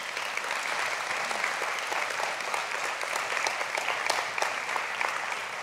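Church audience applauds a mission trip team bound for the Dominican Republic with loud, dense, continuous clapping that holds an even level throughout.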